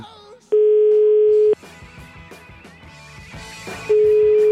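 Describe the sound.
Ringback tone of an outgoing telephone call placed from Italy: a loud, steady single-pitch tone lasts about a second, then stops, and a second identical tone starts near the end. Background music plays underneath throughout.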